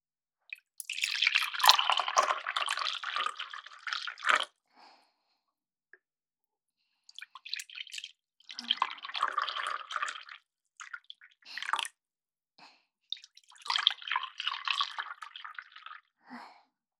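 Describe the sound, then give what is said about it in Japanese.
Hot water is poured into coffee cups to warm them in three separate pours, each a few seconds of bright splashing and trickling. Short drips fall between the pours, with no talk. “今から召し上がるカップにお湯を注ぎます。温めることでより味わい深いコーヒーができるんですよ。”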